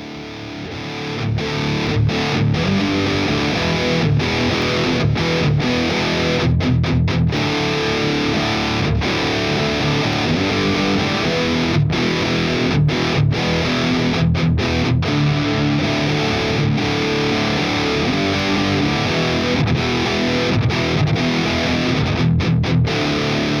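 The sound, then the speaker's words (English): Heavily distorted electric guitar played through a Boss SD1 Super Overdrive into the green channel of a 6505 amplifier, miked with a 421 and a 57. The riff is thick and continuous and is broken by many brief, sharp stops. “This is a Boss SD1 Super Overdrive in front of the green channel of the 6505. A 421 and a 57.”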